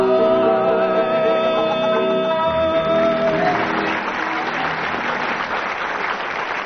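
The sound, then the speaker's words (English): Studio audience applause scoring a round in a panel game: dense, steady clapping that rises out of the fading end of music and then carries on alone to the end. “So by the applause of the audience, Graham and Barry slightly ahead on that round.”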